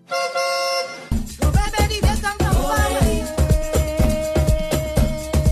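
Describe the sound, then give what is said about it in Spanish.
A truck horn sounds as another truck overtakes on a motorway: one loud, sustained, steady blast lasting about a second, followed by rhythmic music with punchy drum beats. “va un camionero tranquilamente por la autopista, oyendo la radio, vamos a hacer patria, ¿no? Cuando de repente le adelanta otro camión a mucha más velocidad, que le pita para que le mire.”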